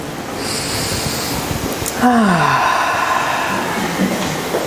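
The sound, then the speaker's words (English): A deep breath is taken during a guided meditation: a soft, airy rush that swells midway and then holds steady until the end. “So now, if you will join me in this breath.”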